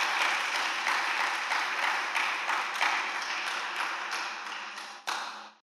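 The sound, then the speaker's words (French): Church audience applauding: dense, even clapping that stays loud throughout, with one sharper burst near the end before it quickly dies away. “est-ce qu'on peut m'aider à acclamer encore pour Jésus?”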